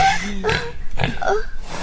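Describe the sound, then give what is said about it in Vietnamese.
A breeding piglet grunts in a few short, low, rough snorts, loud and close together. “Mời gia đình anh Doanh chị Thẩm lên nhận lợn giống. Dạ vâng, có tôi đây ạ, có tôi ạ. Bố ơi, bố ơi, cho con bé em lợn với.”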